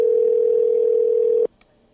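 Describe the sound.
A telephone ringback tone sounds on an unanswered call: a single steady, loud, mid-pitched tone holds for about one and a half seconds and then cuts off abruptly, leaving near silence broken by one faint click.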